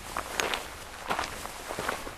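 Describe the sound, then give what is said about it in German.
Footsteps walking through Lanjarón, a Spanish mountain village, past a thermal spa on a hillside. Several soft, irregular steps scuff over a steady background hiss. “Wir spazieren durch Lanjarón, vorbei an einem Thermalbad, das förmlich am Hügel klebt.”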